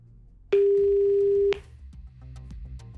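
One steady ringback tone of about a second on an outgoing call to a French number, loud and even, cutting off abruptly and leaving faint line noise.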